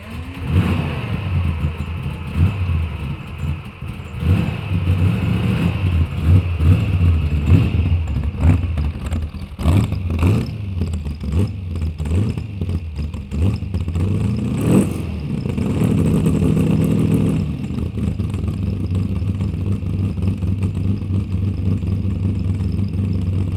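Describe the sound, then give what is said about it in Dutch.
Vehicle engine revving while driving up a hill, a continuous rumbling drone with repeated surges and dips in revs, with no talk over it. “Alsof ik een berg nader. Ik zal proberen het tegenop te rijden.”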